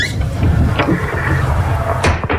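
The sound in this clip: A built-in cupboard door is opened in a bedroom converted from a garage; the cupboard holds flags sorted in compartments. A few brief knocks and clatters are heard against a steady low background.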